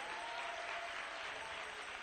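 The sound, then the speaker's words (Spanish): Congregation applause in a church service, a steady, dense wash of clapping that holds evenly for the whole stretch, fairly faint. “Dale un aplauso al Rey.”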